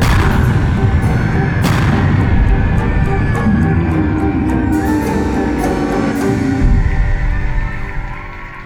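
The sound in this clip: A loud, sustained barrage of gunfire roars with rapid repeated bursts over a dense rumbling wash, then tapers off near the end.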